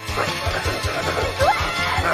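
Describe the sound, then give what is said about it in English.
Dull thumps and a crashing impact as two people tumble off a bed onto the floor. A run of low, fairly rhythmic knocks continues at moderate loudness. “They tumble off the bed to the floor.”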